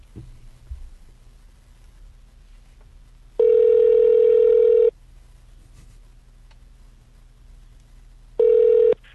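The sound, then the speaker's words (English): A phone call being placed to a surf clothing store: two bursts of a steady, even ringback tone over a faint background hiss, the first about one and a half seconds long and the second shorter. “All right, dialing it now.”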